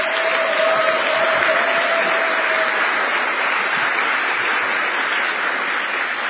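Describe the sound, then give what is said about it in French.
An audience applauds in a hall, a dense and steady wash of clapping that holds at an even, loud level throughout. A faint steady tone sits under the applause for the first half. “Mais je souhaiterais que vous puissiez acclamer d'abord pour vous-même.”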